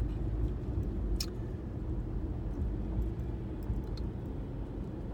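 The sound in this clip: Steady road rumble from a car being driven, a continuous low-pitched hum that holds an even, moderate loudness throughout with no breaks or distinct events.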